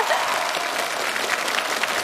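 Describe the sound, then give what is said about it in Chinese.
Audience applause for a contestant on a science quiz stage: dense, steady clapping that holds at an even level from start to finish. “小凡到中间，我们掌声送给这位女英雄。”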